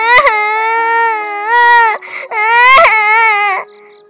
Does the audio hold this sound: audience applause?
no